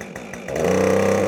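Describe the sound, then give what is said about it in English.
A chainsaw cuts notches into the side of a log at a log cabin build in 7-degree cold. Its engine idles unevenly, then surges at about half a second into a loud, steady, high-revving drone. “The chainsaw carves notches into the side of the log,”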